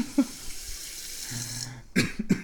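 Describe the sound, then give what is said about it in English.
Tap water runs into a cat's water cup with a steady, bright hiss, then cuts off and is followed by a couple of brief knocks. “Yeah, okay, so we dump out the old kitty water. We fill up the kitty cup full of kitty water all the way to the top.”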